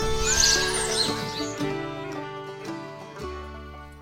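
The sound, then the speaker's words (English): A horse whinnies with a loud, tonal, harmonic neigh at the start, then the sound trails off gradually and grows fainter. “All I'm saying is you don't have to run the poor horse into the ground.”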